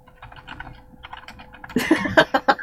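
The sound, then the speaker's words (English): Typing on a computer keyboard: faint, scattered keystrokes at first, then a louder burst of quick, uneven clacking taps toward the end. “Do you want me to type it in on the computer? I got it. Are you sure? Yes.”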